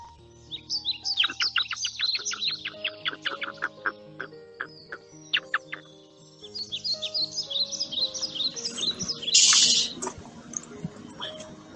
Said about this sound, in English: All right, hyrax, that's enough of you.